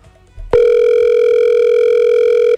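A telephone ringing tone for an unanswered call, heard as one loud, steady, unbroken tone that starts suddenly after faint low noise and holds for about two seconds.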